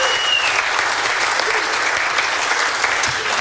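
An audience applauds the sound crew with dense, steady clapping that stays at an even, fairly loud level throughout.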